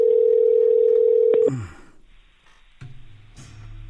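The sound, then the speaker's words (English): A telephone dial tone while placing an outgoing call: a loud, steady, even tone holds for about a second and a half, then cuts off, followed by a few clicks and quiet line noise. “I'm calling random people here.”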